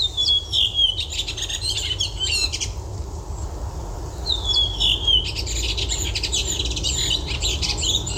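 Thrush song: bright whistled notes and quick chirping phrases in two bursts separated by a short pause, over a steady low background rumble.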